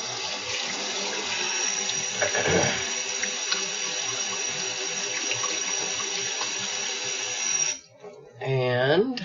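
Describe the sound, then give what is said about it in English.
Tap water running steadily into a kitchen sink while hands are washed, a continuous loud hiss that stops abruptly near the end. A voice then speaks briefly. “you can set that out of the sink long enough to wash your hands.”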